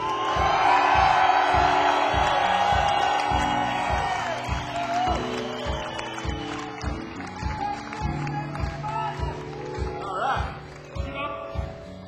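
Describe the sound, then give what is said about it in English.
A crowd cheers and whoops to welcome a band onto a stage in Scotland, loudest at the start and then easing, with a steady rhythmic beat running underneath. “So, if you guys don't mind, show these lads what it's like to welcome a band to our country. Please welcome on bass guitar, Mr. Lindsay Coulter.”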